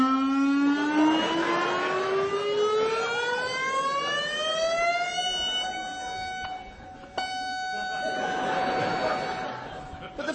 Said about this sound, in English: But the joy of this phosphorus is the warning sirens that would go off if the plant explodes. So the warning sirens have to be tested. So on the 3rd of every month at 3 p.m, and you'll be familiar with this, you hear this sound.